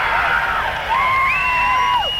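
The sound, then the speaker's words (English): Audience cheering and whooping at a concert: a dense, steady crowd noise with sustained high vocal whoops that hold and bend in pitch, lasting throughout. “Sounds like 30% of the audience will make some noise, but they won't really skip the audience participation.”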